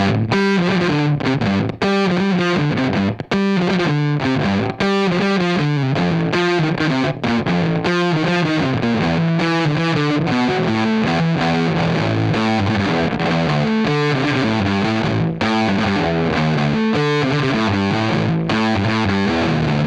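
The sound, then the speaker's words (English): Heavily fuzzed electric bass from a Fender P bass with its volume knob turned fully up, played through a Seeker Electric Effects Tonebender MKI fuzz pedal. A thick, loud, saturated riff plays continuously, with dense sustained notes and no pauses. “I had the volume knob on the P bass just turned down a little bit to bring out a little bit more of the attack and the gatiness. So I'm going to turn the volume knob all the way up now.”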